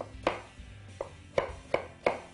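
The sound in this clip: A knife rough-dices food in five sharp, quiet chopping knocks at uneven intervals, with no voices.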